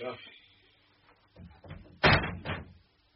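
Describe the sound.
A window being opened gives a couple of loud, rough scraping bursts close together near the end, after quieter shuffling sounds and low talk.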